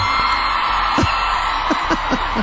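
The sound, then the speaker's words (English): A huge stadium crowd of about 90,000 people screams and roars in a steady, loud wash of noise, with several short whoops and yells rising briefly above it. “I'm just wondering, hang on, what they're really screaming at here.”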